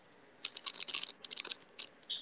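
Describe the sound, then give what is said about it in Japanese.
A plastic bag of aonori seaweed rustles right at the microphone in a quick run of sharp, crinkly crackles that ends in a brief hiss. “マイクのところで青のりの袋がサガサガサってしちゃった。”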